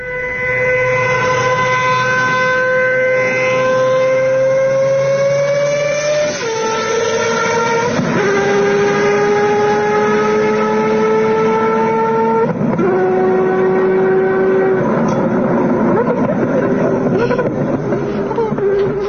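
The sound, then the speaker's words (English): A rotary-engine car downshifts, its loud, buzzy, high engine note holding steady and then leaping upward in pitch at a few gear changes. “The downshift is insane. That is so cool. So that sounds like a bike. Yeah. That does sound like a bike. So it kind of sounds like a Formula One car as well. It's probably as loud. It's got to be a rotary.”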